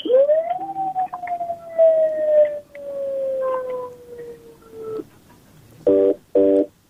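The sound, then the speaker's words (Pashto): Telephone tone after a call is disconnected: a loud electronic whine climbs quickly, then slides slowly downward for several seconds and stops, followed by two short, buzzy beeps. “اړیکه یې پرې شوله.”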